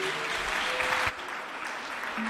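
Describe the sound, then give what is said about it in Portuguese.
A worship audience claps for Christ: a dense, even patter of many hands that dips briefly partway through and then carries on at the same steady pace. “As palmas são fortes para Cristo.”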